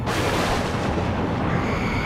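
Thunder crashes amid a howling gale during a storm, a dense, loud, continuous roar of rumbling noise that fills the whole two seconds without a break.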